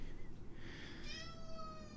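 A cat meows indoors while rubbing its face against cabinets, letting out one drawn-out, fairly faint meow with a clear harmonic tone and no voices over it.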